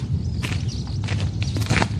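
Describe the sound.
Footsteps walking at an even pace, a string of soft muffled thuds and scuffs repeating steadily over a constant low rumble, with no voices heard.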